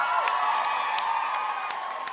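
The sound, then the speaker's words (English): A live studio audience cheers and applauds a guest being introduced, with voices whooping over a fairly soft, continuous bed of clapping. “Please give a giant round of applause”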